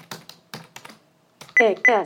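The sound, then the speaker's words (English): Keys are pressed on a computer keyboard while a name is typed. A few sharp, crisp clicks are followed by a synthetic computer voice speaking. “So let me type in my name and NVDA again.”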